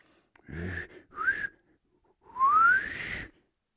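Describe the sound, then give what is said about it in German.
Whistling to call a runaway dog: three breathy whistles. The first two are short, and the third is longest and slides upward in pitch. All are fairly soft, with no voices. “Warte mal, Hans Frieder kann doch pfeifen.”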